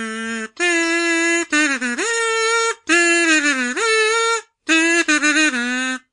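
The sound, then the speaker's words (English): A small tin kazoo buzzes through four nasal, reedy phrases separated by short gaps, its tone dipping and sliding in pitch within the phrases. “It's a small tin instrument invented in the early 1900s for people who wanted to annoy their neighbours. It sounds like this.”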